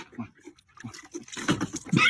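A calf drinking milk, played back from a video, gives wet slurps, snorts and snuffling gulps that grow denser and louder toward the end.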